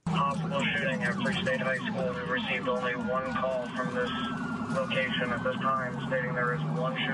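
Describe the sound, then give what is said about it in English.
Police sirens wail as officers race to Free State High School in Lawrence, several overlapping rising and falling tones cycling continuously and loudly over a low engine rumble. “That's what it sounded like as police in Lawrence raced to Free State High School, one of many where active shooter calls were reported.”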